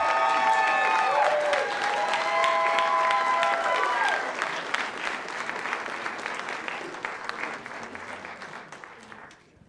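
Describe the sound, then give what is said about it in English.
Audience applause at a political debate as the candidates are brought out: loud, sustained clapping runs under a speaking voice for the first few seconds, then thins and fades out toward the end. “You can go ahead and clap here in a second as we bring the candidates out.”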